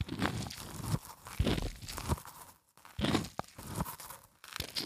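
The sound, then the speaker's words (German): A squeeze toy is pressed so its beads push through the mesh, held close to a microphone, giving crunchy, crackling squelches in repeated bursts with brief pauses. “Wenn man diese Perlen durch das Netz drückt. Oh, ich finde das so super.”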